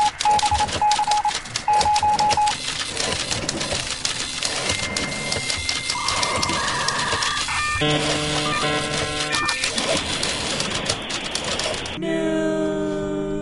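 Typewriter sound effect used for news, a dense, rapid clatter of keystrokes with a few short ringing tones mixed in and a change in the sound near the end.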